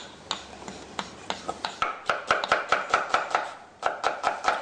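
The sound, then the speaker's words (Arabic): A knife cuts an onion into julienne strips on a board, many quick, crisp, evenly spaced taps that keep a steady chopping rhythm with a brief break near the end. “بصل انا بقطعه جوليان هنا بضيفه على السبيط.”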